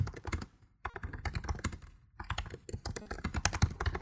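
Fingers type on a computer keyboard while filling in an online form: rapid, irregular clicking keystrokes, broken by two short pauses.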